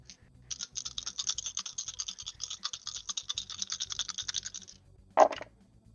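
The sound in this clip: Several dice, three six-sided and one eight-sided, rattle across a table during a tabletop role-playing game: many quick, faint clicks and clatters for several seconds, then one sharper knock near the end.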